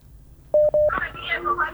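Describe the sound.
Telephone keypad tones sound as a number is dialled to call back: two short, identical beeps in quick succession, then people talking.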